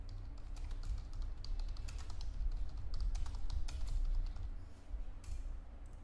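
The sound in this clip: Rapid typing on a computer keyboard as a business name is entered, with many dense, quick clicks running steadily throughout over a low, constant hum.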